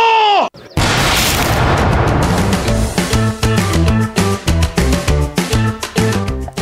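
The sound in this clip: A firing squad's rifle volley sounds in a historical dramatization of an execution. A shouted voice is followed by a single loud, sharp crack-burst, then dramatic rhythmic music with heavy percussive hits takes over.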